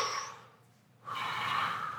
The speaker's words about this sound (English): What do you think about when I do that? When I breathe in and I breathe out.